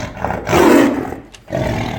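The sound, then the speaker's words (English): Lion roaring: a loud, deep, throaty roar in two bursts, with a brief drop in sound between them and no voices. “And then a lion came around and finished him off.”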